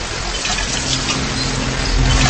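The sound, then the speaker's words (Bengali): Water gushing steadily from a hand-pumped tubewell at night, a continuous hissing flow that grows slightly louder toward the end. “টিউবওয়েলের দিকে যেতে শাফরাত দেখল মধ্য বয়স্ক এক মহিলা টিউবওয়েলের চাপ দিচ্ছে।”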